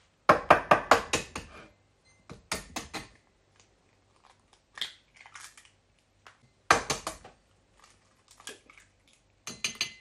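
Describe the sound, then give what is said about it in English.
Eggs being cracked and separated while preparing a recipe. A quick cluster of sharp taps and cracks is followed by sparser, quieter clicks, then another burst of cracking. “next I'm going to separate the eggs.”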